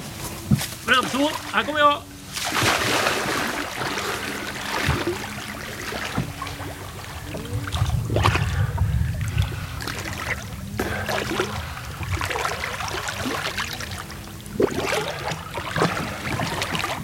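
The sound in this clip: Gentle splashing and trickling of a person swimming in a river, with soft repeated strokes and bursts of water. Voices talk now and then over the steady murmur.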